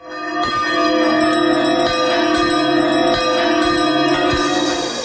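Two bells ring loudly, giving many metallic strikes in a steady rhythm whose long, shimmering resonance overlaps into a continuous wash of tone.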